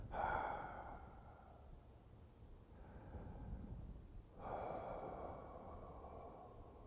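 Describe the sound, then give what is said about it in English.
Breathing through an open mouth during a relaxation exercise, an exhale and a quiet inhale: two soft, airy breaths separated by a pause, with no talk. “begin by opening the mouth and exhaling the breath. See, then inhale. And you do it kind of quietly.”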